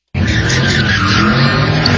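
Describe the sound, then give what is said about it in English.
Car tires screeching as a car does donuts at a street takeover in North Hills, San Fernando Valley: a loud, continuous skid squeal that starts abruptly and holds steady for about two seconds. “Two people have been hurt by a car during a street takeover in North Hills in the San Fernando Valley. Both were seriously hurt last night. Video shows the car doing donuts when the spectators were hit.”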